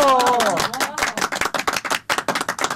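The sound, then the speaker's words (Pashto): An audience claps as a poet is called to the stage. The claps are separate, irregular and crisp rather than a blended roar. A brief voice is heard at the very start. “اوس هم سټیج ته رابولو چلمیار بوغی صاحب په ویاړې یو چکچک.”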